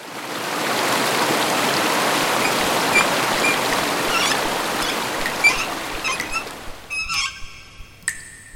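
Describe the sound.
Water effect of rain or a rushing stream gives a steady, dense hiss for several seconds, then stops abruptly and is followed by a few short honking bird calls.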